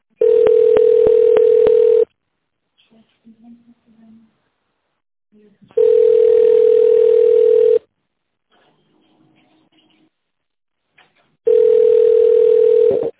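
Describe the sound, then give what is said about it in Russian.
Telephone ringback tone heard while placing a call to a company: three long, steady, mid-pitched beeps, each about two seconds, separated by longer quiet gaps with only faint low sounds. “Я звоню РСК «Стройх А». Это вы еще не соединили меня. Так, секунду.”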